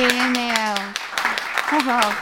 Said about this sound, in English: do we have a studio audience? Will you all clap your hands?